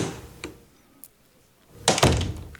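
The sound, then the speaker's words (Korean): An office door being opened: a light thump early on, then a louder rustling, scraping burst as the door swings open near the end, with no voices. “지훈은 자신의 사무실 문을 열었다.”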